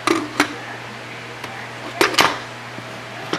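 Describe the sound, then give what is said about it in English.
A pressure cooker lid is set in place and locked, giving a few sharp metallic clanks and knocks at irregular intervals. They are fairly loud against a low, steady hum. “now we're going to go ahead and put the top on the pressure cooker on”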